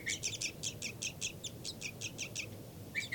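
Flight calls from a captive bird pursuing a begging chick around a cell: a rapid series of many short, high chirps in an even rhythm over a low, steady background hiss.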